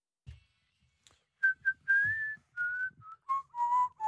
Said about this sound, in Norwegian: Hvem det som plystrer på den låta her da?